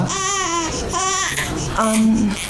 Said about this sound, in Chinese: 饿了， 快给孩子吃一口啊，别让他这么哭啊。